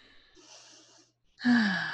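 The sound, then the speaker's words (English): A deep breath in and out: a soft, airy inhale, a brief pause, then a louder, sighing exhale. “Deep breath in and a deep breath out.”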